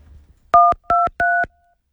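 Three short telephone keypad tones sound in quick, even succession as a new mobile phone's code is dialed, each beep a clear, loud dual tone of slightly different pitch.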